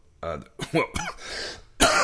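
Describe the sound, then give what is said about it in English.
Coughing from a lingering chest cold: a few rough, harsh coughs with throaty sounds, loud and alone. “I've had this cough. I was actually getting over a chest cold, and I've got this cough that's kind of lingering.”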